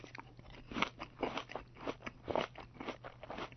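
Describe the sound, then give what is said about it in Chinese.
Crisp crunches of fruit being bitten and chewed repeat in a steady chewing rhythm, quiet and close, with no talk. “于是就摘下果子来吃了”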